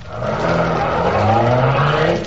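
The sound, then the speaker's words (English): A car engine revs loudly and the car drives off, a steady, strong roar that holds and swells slightly as it pulls away, with no voices over it. “Get this car going.”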